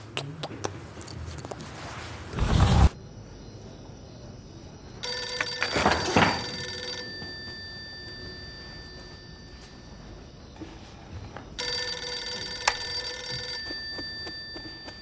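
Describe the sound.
A telephone rings in two long tonal bursts of steady, bright, high harmonics separated by a quiet gap, with no talk over the ringing.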